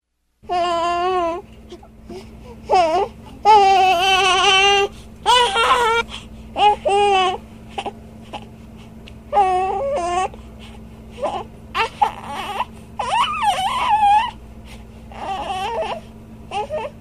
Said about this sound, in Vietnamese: Ông Jerome lúng túng vì đứa bé la hét ầm lên.